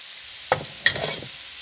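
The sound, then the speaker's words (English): Arancini fry in a pan, giving off a steady, bright sizzling hiss throughout, broken by two brief taps. “So we've got in the pan now arancini.”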